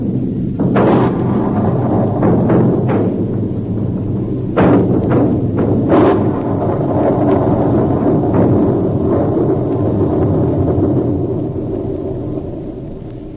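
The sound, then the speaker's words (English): A hand grenade explosion wrecks an antique shop in a radio drama effect: a loud, sustained roaring rumble with sharp blasts bursting through near the start and middle, slowly thinning toward the end. “Count Padova attempted to throw a hand grenade. I was forced to shoot. The shop was destroyed in the explosions that followed.”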